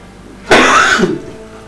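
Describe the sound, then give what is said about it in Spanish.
One dry, hacking cough from a person with a bad, irritated cough. It is a single harsh burst lasting about half a second, loud and raspy, with quiet before and after. “Perdón, hermano, que tengo una tos reseca horrible.”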